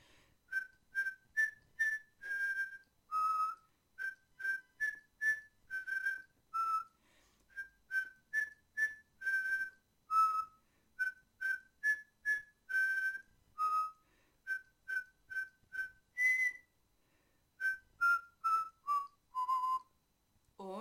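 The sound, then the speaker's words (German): Melodic whistling of a tune: many short, clear notes in quick phrases with brief pauses between, moving up and down in pitch, alone without talk. “Dann mache ich es nochmal ein bisschen anders. Jetzt werde ich es einfach pfeifen.”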